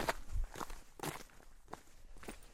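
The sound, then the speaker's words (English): Footsteps in hiking sandals crunch up a woodland trail toward a climbing crag, several soft, uneven steps at a walking pace, faint and with no voices. “We stash the bikes in the woods and start hiking.”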